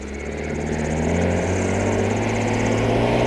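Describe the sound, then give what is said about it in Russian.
A vehicle approaches with a steady engine drone that grows slightly louder over the first second, then holds at a constant level with low humming tones throughout. “Ой, наши едут. А что это они так рано?”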